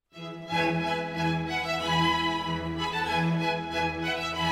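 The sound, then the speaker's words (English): Bowed string instruments of an orchestra play a sustained, rich chord with gentle swells and vibrato, entering after a brief silence and holding steadily without voices. “Sitting in the front row are the musicians playing instruments with bows. They sound like this.”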